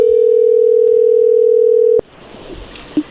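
Steady telephone dial tone as a call is placed, held loud and unbroken for about two seconds, then cutting off to faint line hiss with a short beep near the end.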